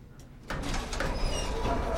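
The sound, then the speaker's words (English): Elevator doors slide closed in a hallway, a sudden sliding rush that starts abruptly and holds at a steady level to the end. “The doors close.”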